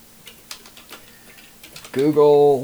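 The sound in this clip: Someone types on a computer keyboard to search the web: a few faint, scattered key clicks, followed by a person speaking at the end.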